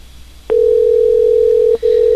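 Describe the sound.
A telephone ringing tone on an outgoing call: after a short quiet moment, a loud steady single-pitch tone starts, breaks off briefly, then resumes.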